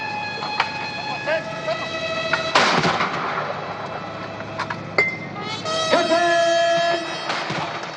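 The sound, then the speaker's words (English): Cannon fire from a 21-gun salute at a state welcome ceremony at a palace, heard as a few sharp booming reports with ringing tones between them, while someone talks over it. “They were greeted by guards of honor, while a military band played welcoming music and a 21-gun salute was fired.”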